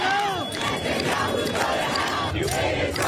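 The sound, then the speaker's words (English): A crowd of protesters near UN headquarters shouts in outrage at Benjamin Netanyahu. Many voices yell and chant together in a loud, unbroken roar. “Not far from the UN headquarters, crowds voiced their outrage at Benjamin Netanyahu, leading to around 100 arrests.”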